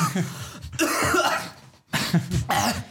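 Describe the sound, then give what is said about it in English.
A coughing and choking fit: harsh, forceful coughs in a few long, ragged bursts, with a brief silent catch of breath between them. “You'll be choking for the rest of the podcast now.”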